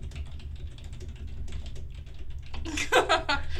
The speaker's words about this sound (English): He's typing.